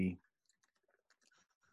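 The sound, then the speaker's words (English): Soft keyboard typing as an amendment is typed out during a meeting: a brief voice at the start, then many light, scattered key clicks, quiet and irregular. “And the amendment is being typed out”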